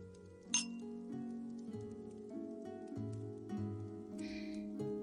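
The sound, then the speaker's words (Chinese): Glasses clink in a toast with chilled fruit wine: one sharp, bright clink near the start and a softer ringing one later, both faint over a low, tonal background. “再来上一杯冰镇果酒。祝你健康，长命百岁。”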